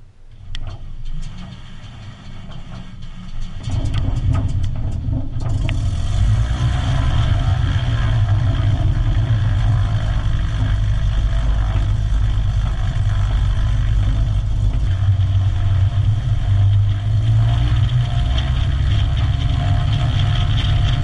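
Engine roar of a Cessna 185 amphibious floatplane on its takeoff run across water. It starts as a quieter rumble, then swells after about four seconds into a loud, dense, steady roar that continues to the end.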